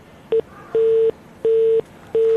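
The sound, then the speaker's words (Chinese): Telephone busy tone heard while dialing a company's customer service line: one short blip, then three longer beeps at a steady, unchanging pitch, evenly spaced with silent gaps, loud and alone with no voices. “我们此刻正在拨打，这是忙音的状态吧？”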